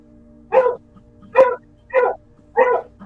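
Dogs barking: four sharp, evenly spaced barks, each a short harmonic burst, loud against a quiet background with no talk.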